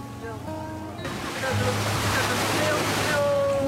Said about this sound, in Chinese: 他坐在海滩上，迎接着一波又一波的浪花，神情显得格外的兴奋。